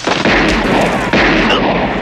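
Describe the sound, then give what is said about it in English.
Gunfire as a man opens fire during a street shootout: heavy, dense blasts with two sharp loud onsets, each followed by sustained roaring noise. “Sam is excited to find his friend when suddenly Wicks opens fire on him.”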